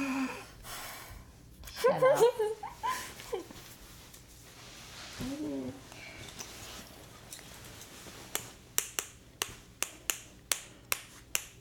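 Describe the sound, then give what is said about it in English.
Tapping a spoon to make music: a quick, even run of sharp, bright clicks in a steady beat, following earlier laughter and voices. “You're making music with a spoon.”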